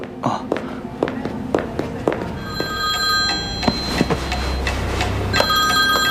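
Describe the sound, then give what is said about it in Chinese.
A telephone rings in a restaurant's private dining room. A steady electronic ring tone starts partway through, with sharp taps and clicks throughout. “哦，不好意思，我接个电话。”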